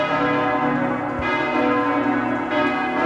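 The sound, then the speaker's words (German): Church bells ring for a wedding, a dense wash of overlapping peals that stays steady and loud throughout, with no voices. “Bei den Hochzeitsglocken, das ist, ne? Das ist genau richtig, ja.”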